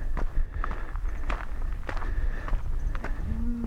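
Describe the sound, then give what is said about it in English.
Footsteps of someone walking outdoors toward a road, a steady pace of soft thuds set against a dense, noisy background. “I'm walking out to the road now.”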